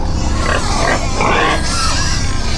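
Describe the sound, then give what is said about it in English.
Grunting from a large herd of hogs grazing on a hillside: a dense, continuous mass of overlapping low snorts and grunts that carries on without a pause. “Now there was a large drove of hogs grazing on the hillside”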